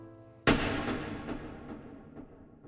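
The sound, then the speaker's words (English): A gunshot fired at close range on a house porch: one sudden loud crack that drops into a long rolling, echoing decay, with no voices. “Without saying another word, the stranger shot William at close range and rode off.”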